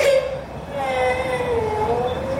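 A little girl crying after a minor burn, a drawn-out wavering whimper and wail with sustained moaning tones that hold at a steady level.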